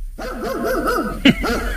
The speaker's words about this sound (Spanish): solo te ha oído un perro ahí lejano. Un perro sí